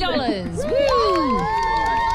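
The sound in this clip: Children on a game show cheer and shout excitedly after a contestant wins money. Their high, rising and falling whoops overlap in a continuous lively babble.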